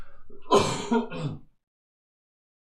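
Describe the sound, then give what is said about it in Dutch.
A single throat clearing, a rough guttural rasp lasting about a second, heard alone and followed by silence. “Even iets uit mijn keel halen.”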